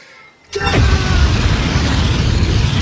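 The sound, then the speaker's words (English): A superhero's eye-blast energy beam sound effect bursts in abruptly after a brief hush. A sharp falling tone leads into a loud, sustained roaring rumble that holds steady to the end. “Here's one. This is the eye blasts of Cyclops.”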